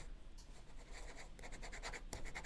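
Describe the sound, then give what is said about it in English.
Pen writing a grade on paper, a faint series of short scratchy strokes in an uneven rhythm, with one sharper stroke near the end. “I'm going to write down a grade”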